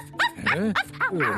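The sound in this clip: A dog gives a quick run of yelping barks, each with an arching rise and fall in pitch. The barks come in close succession, fairly loud and with no talk.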